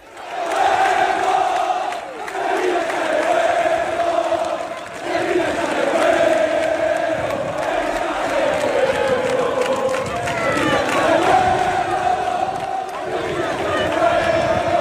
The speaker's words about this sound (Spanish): Parece ambiente de partido, pero es ambiente para recibir a los jugadores antes de un partido, el día antes, porque el Sevilla juega mañana